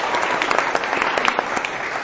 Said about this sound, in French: Est-ce qu'on peut applaudir pour eux?